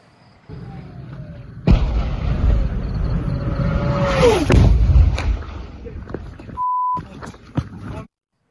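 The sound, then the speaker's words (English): Incoming rocket striking Sderot: a whistling tone that slides downward as it falls, ending in a loud rumbling blast, set within continuous heavy noise and followed by a brief steady beep. “You can hear the power of that rocket coming in.”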